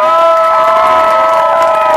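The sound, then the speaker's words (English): A crowd cheers loudly and without pause, its shouts and whoops merging into a dense, sustained roar. “Give a huge round of applause for the Suicide Girls.”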